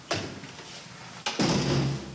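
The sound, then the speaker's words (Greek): A repaired apartment door that no longer closes properly is opened and shut, giving two solid wooden clunks, the second followed by a sustained rattle. “Αυτή είναι η επισκευασμένη πόρτα.”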